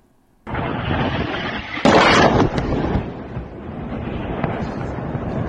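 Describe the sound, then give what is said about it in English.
Missile strikes explode near a strategic bridge by Odessa in southern Ukraine: a sudden heavy blast gives way to a sustained low roar, then a sharper, louder burst follows before the rumble trails on steadily without voices. “There are more missile strikes in the south. Listen to this.”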